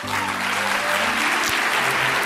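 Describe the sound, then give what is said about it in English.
Audience applause at a film festival gala opening night in Vienna: dense, steady clapping from a large crowd, loud and continuous for about two seconds, with faint low tonal sounds underneath. “You can also stop holding the applause.”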